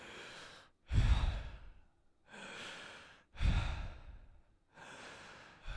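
Deep breaths taken together during a calming pause: quieter airy inhales alternate with louder, gusty sighing exhales in a steady, unhurried rhythm, with no talking.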